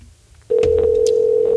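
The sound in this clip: A telephone call ringing out: after a brief quiet moment, a loud, steady electronic tone starts abruptly and holds without a break.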